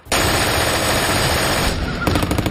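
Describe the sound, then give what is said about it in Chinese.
Heavy gunfire from various weapons fired down from clifftops at a seaborne landing: a dense, continuous rattle of machine-gun bursts and shots, loud and unbroken, with sharper individual cracks near the end. “德国人从峭壁上面冒出来，用各种武器朝我们射击。”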